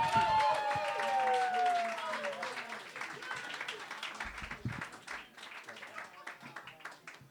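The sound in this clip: Applause from an audience at a comedy show, clapping and crowd noise that starts loud and thins into scattered claps, with a high whistle-like tone sliding downward at the very start.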